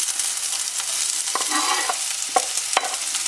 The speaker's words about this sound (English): We're going back over to our olive oil, and I'm going to add all the onion in,